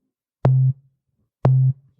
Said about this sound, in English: So we have our cool sine wave again.